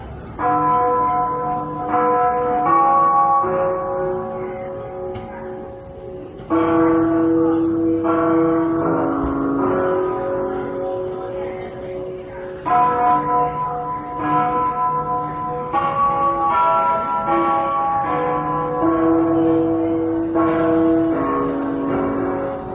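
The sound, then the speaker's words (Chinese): Clock bells at Beijing railway station chime a slow melody after the hourly time signal, with loud, sustained metallic tones ringing one after another and overlapping throughout. “它曾出现在北京火车站整点报时后的钟声里”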